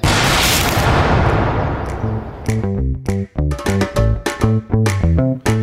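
A firing squad volley of gunfire erupts as a loud burst of noise that fades over about two seconds. Rhythmic music with punchy, pulsing beats follows.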